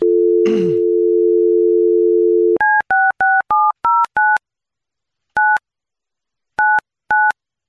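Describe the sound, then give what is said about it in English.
A phone dial tone hums steadily for a couple of seconds, then ten crisp keypad beeps follow: seven in a quick run, then three more spaced out with pauses. “Let me dial her up.”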